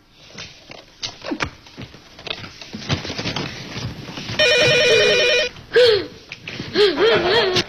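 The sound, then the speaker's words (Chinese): A telephone rings partway through in a buzzing, bright burst lasting about a second. Scattered tapping and rustling noises come before it, and wavering tonal sounds follow. “嘿，你这孩子怎么不接电话呀？”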